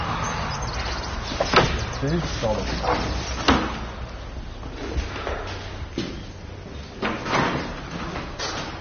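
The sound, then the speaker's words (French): Clunks and scrapes of an old Gascon door lock being worked open: a few sharp metallic knocks and rattles spaced apart over a steady low background. “C'est une vraie serrure gasconne, il faut ouvrir à l'envers.”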